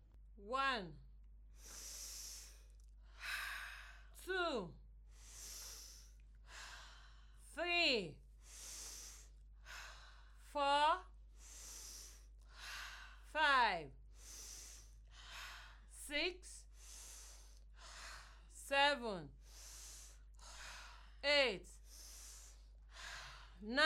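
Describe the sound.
Slow guided breathing, in through the nose and out through the mouth, repeated many times in a calm, even rhythm. Airy inhales alternate with exhales, some of which carry faint, falling sigh-like tones.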